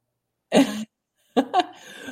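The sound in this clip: A single short cough, then after a brief pause a couple of quick, rough throat-clearing bursts, each loud against silence.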